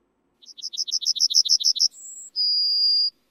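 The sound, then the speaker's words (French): A yellowhammer sings alone, starting with a rapid series of a dozen or more short, high, buzzy notes. It ends with two drawn-out whistled notes, the second longer and slightly lower. “Et ce que vous entendez maintenant, c'est le chant d'un bruant jaune et il se fait de plus en plus rare à nos oreilles.”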